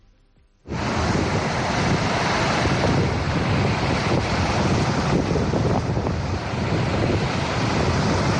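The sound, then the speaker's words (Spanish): Strong storm wind roars through Pesués during heavy rain, bursting in suddenly after a brief quiet moment and then holding as a loud, dense, hissing rush with slight surges in force. “Sopla el viento y lo hace muy fuerte, como podemos escuchar.”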